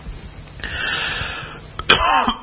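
A person clears their throat because of a tickle: a drawn-out, rough rasp, then a sharper, louder burst near the end. There is no speech.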